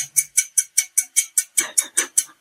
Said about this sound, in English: you can change the sound of the timer. Oh, here. So listen, you can change the ticking